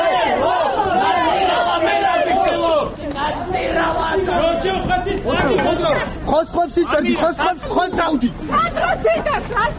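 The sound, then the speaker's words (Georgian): Shouting from a small crowd gathered outside the Interior Ministry as a former prime minister is seen off to his car: loud, overlapping voices calling out continuously, rising into sharper bursts toward the end. “შინაგან საქმეთა სამინისტროსთან შეკრებილმა რამდენიმე ადამიანმა ყოფილი პრემიერ მინისტრი მანქანამდე შეძახილებით მიაცილა.”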